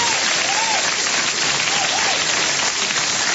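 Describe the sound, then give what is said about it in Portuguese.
Applause for people celebrating their birthdays: a dense, steady patter of clapping that holds at an even level throughout, with no clear breaks. “agora aqueles aplausos bonitos para os aniversariantes.”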